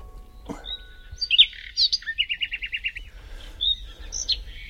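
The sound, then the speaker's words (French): Recorded birdsong played back: high clear chirps and whistles, then a rapid trill of repeated notes, followed by a few more whistled calls, heard alone and fairly loud. “Alors, quand j'ai de la visite, je mets le chant des oiseaux.”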